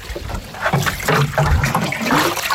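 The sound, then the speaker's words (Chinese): Water is poured onto newly planted pine seedlings on uneven hillside ground, a loud, steady gushing and splashing with sloshing surges. “正忙着为新栽的松树苗浇水”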